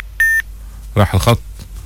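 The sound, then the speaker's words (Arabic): A single short, steady electronic beep marks a phone call-in line dropping, holding one bright tone for a moment before a voice speaks. “راح الخط يا ابني”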